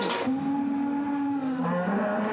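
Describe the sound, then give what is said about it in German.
Cattle bellowing: excited in-calf cows on a farm give a long, drawn-out low moo with a rich, buzzing tone, followed by a second, shorter call. “Rinder. Ja, die sind natürlich aufgeregt. Die kennen ja die Situation nicht wirklich und schreien natürlich im Moment.”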